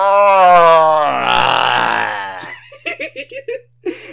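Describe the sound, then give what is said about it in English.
A man groans in a long, drawn-out vocal moan, followed by several short, breathy bursts like chuckles. “I love hearing him groan.”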